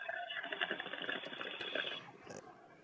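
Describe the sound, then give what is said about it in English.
Water bubbles in a bong during a hit, a steady rattling gurgle that runs for about two seconds and then stops, leaving quieter sounds behind. “Bong rip.”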